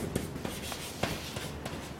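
Writing sounds as faint, scratchy strokes repeat at an uneven pace, with a few slightly sharper taps standing out from the quiet background.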